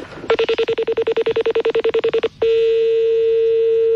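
Telephone keypad tones as a number is dialed: a rapid, even string of many short beeps, followed by a steady continuous tone.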